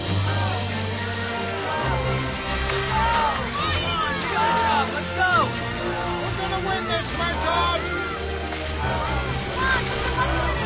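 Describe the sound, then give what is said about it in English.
Paddles slosh through lake water as families row long canoes in a race around a wooded bank. The steady splashing runs throughout, mixed with a loud babble of shouting voices. “The families row their long canoes ahead.”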